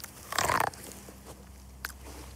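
A crunchy bite into a corn on the cob that looks dented on top gives one short, loud, broad burst, followed a moment later by a single faint click.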